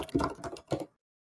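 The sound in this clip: Soft typing on a computer keyboard while a search is entered: a quick cluster of faint clicks, a short pause, then a second brief burst of keystrokes before everything falls silent.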